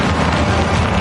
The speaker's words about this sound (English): And that's the sound of Quattro all-wheel drive.